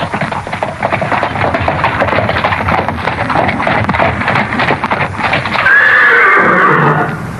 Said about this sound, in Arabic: قف يا هذا، إني سمعت وقع حوافر خيل قادمة.